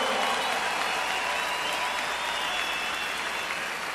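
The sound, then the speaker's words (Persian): Audience applause for the musicians at a concert: dense, steady clapping from a crowd stays loud throughout and eases slightly toward the end. “به افتخار آرمن و گروپش، تانکیو، به افتخارشون دست محکم.”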